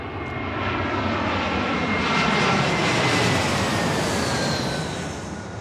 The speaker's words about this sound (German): Gerade kommt eine Maschine auf die Startbahn.